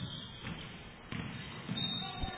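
A basketball is dribbled across half court during a game, giving a few soft, muffled bounces spaced under steady background noise.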